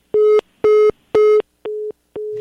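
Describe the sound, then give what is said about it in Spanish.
A telephone busy signal follows a dropped call: five evenly spaced beeps of the same steady pitch, with the last two slightly quieter, and no voices. “se cortó la llamada con Mariana Gómez del Campo”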